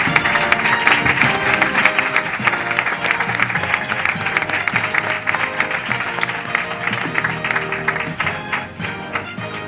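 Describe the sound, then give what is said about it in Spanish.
Applause at a human-resources forum as a corporate director receives an award. Sustained clapping stays full and steady, then thins and softens toward the end. “a la cual le damos un aplauso”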